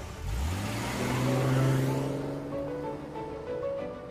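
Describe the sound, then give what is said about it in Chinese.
A car engine starts and revs with rising pitch as it pulls away to drive back to a factory along a small road, then settles into a steady drone that eases off slightly. “沿着小路下去，开车回了工厂。”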